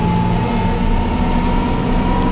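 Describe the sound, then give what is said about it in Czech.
A Bushmaster armoured vehicle is driven over 2.5-metre obstacles, giving a loud, steady engine drone with a constant whine riding on top. “Řidič Bushmasteru Jakub Dobijáš právě překonává 2,5metrové překážky. Obrněné vozidlo bylo v minulosti nasazeno v konfliktech Afghánistánu, v Iráku a v Mali.”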